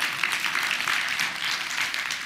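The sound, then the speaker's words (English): A church audience claps its hands during a morning worship service. The clapping is steady and dense, with many overlapping claps at a fairly even, moderate loudness throughout. “Give Him a hand clap.”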